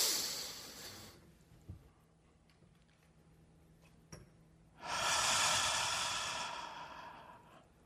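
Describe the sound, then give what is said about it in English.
A guided big, long, slow breath in: a brief airy breath at the start, a quiet stretch with a couple of small clicks, then a long, loud, hissing breath lasting about three seconds before fading. “Very slowly. Big, long, slow breath in.”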